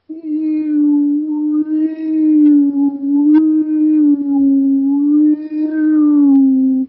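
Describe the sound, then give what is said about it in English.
A human voice sustains a low hummed tone and lets its pitch waver gently up and down around one note, with a few short breaks. “And that is to create a binaural beat by going up and down, above and below this frequency. So out loud, again, you would be doing this silently, but out loud you could go.”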